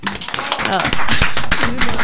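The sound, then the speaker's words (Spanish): Clapping from a small group, a dense patter of hand claps building after a brief start and holding steady, with a voice faintly underneath. “Las felicitamos y, bueno, un aplauso para ustedes.”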